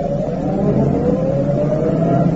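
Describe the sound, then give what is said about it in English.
A car approaches up a driveway with a continuous low engine rumble and a faint hum that rises slightly in pitch, steady and fairly loud without voices. “There's a car. I see it. It's going to turn up our drive.”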